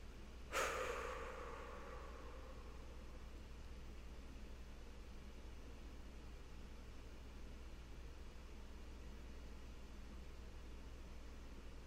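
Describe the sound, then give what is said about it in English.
A long, noisy exhale during a breathing exercise: one abrupt breathy burst that trails off over about two seconds, then only a steady low hum remains. “And notice that exhale. Maybe even making it a little bit longer, a little bit noisier.”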